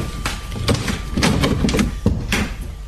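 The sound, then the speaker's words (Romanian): A door is opened late at night to a visitor: a quick series of clunks, rattles and knocks from the latch and door, irregular and fairly loud, without voices. “Cine-o fi la ora asta? Mă duc să deschid.”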